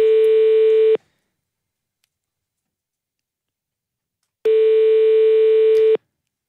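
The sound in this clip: Ringback tone of a telephone call being placed again: a steady, buzzing tone sounds for about one second, then a long silence, then a second, slightly longer burst of the same tone.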